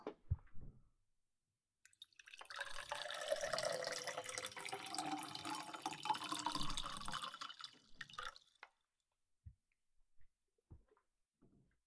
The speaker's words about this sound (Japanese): 次もちょっと音を用意しようかな。まずはお湯を。